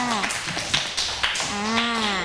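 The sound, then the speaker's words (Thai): Scattered, light clapping from schoolchildren applauding a classmate, a few soft irregular claps under a woman's voice. “ปรบมือให้เพื่อนด้วยค่ะ”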